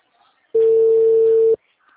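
Telephone ringing tone on an unanswered call: a single steady, mid-pitched electronic tone lasting about a second, clean and loud, with near silence on either side.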